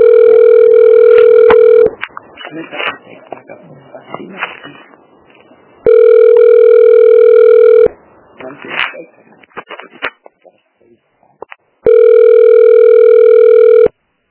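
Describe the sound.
An electronic telephone rings in three evenly spaced bursts, each a steady, bright tone lasting about two seconds. Between the rings, people talk.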